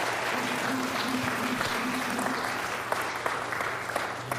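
An audience applauds to welcome a guest onto a stage, a dense, steady clapping of many hands that holds its level and tapers slightly near the end.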